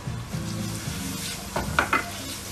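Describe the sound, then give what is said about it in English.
Eggs frying in a pan give off a steady, hissing sizzle throughout, with a few louder crackling bursts and light utensil scrapes toward the end. “All right, let's get the eggs going.”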